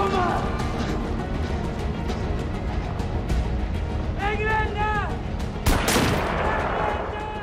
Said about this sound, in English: German soldiers are firing at him as he weaves through the buildings.